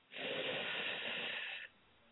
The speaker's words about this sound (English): One more time, inhale in.